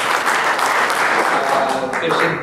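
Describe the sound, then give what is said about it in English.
An award ceremony audience applauds a journalist receiving a press award. The clapping is dense, loud and even, and stays constant from start to finish. “After the applause, which lasted well over a minute,”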